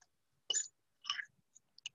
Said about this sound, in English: So here I have my herbs and I have my blueberries and I'm just gonna mix them up together.